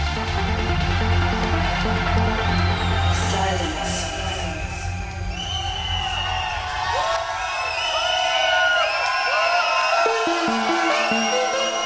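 A crowd at a techno event screams, cheers and whoops in a loud, continuous roar, with individual shouts and yells rising out of the din.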